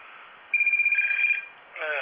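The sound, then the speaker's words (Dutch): A telephone rings with a steady, high electronic tone that pulses rapidly, heard over a thin, band-limited line with background hiss; a voice starts up right at the end. “Nogmaals, ik word gebeld.”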